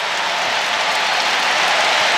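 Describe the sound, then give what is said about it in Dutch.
A stadium crowd applauds a substitute footballer coming onto the pitch, a thick, continuous hiss of massed clapping that stays level and unbroken from start to finish. “Zijn invalbeurt wordt op applaus onthaald.”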